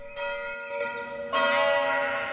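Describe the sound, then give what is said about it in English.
Church bells rung by two boys pulling bell ropes in a church with a square steeple. Two strikes of rich, ringing tones sound, the second louder, and each hum sustains fairly quietly. “On a bright, sunny morning, two boys pull bell ropes in a church with a square steeple.”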